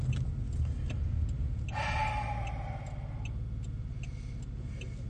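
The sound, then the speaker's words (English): A noisy car is being driven, with a steady low rumble, light ticking and rattles throughout, and a brief high whine partway through. No talking. “There's nothing to hide about my car. It's not the quietest thing.”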